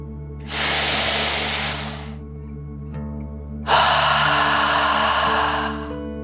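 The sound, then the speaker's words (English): A deep breath taken in and then let out, two long airy rushes of breath separated by a short pause, over soft sustained musical tones. “let's take another deep dragon breath together. Ready? Deep breath, in and out.”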